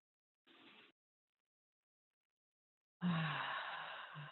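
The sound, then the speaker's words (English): Deep breathing during a spoken affirmation session: a brief, soft breath, then after a long silence a fuller, louder breath that lasts over a second and trails off. “And just take a deep breath.”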